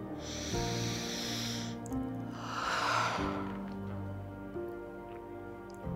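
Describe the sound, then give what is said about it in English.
A single deep inhale during guided meditation, a long breathy rush that swells and fades in the middle, heard over soft, sustained background music tones. “Deep inhale.”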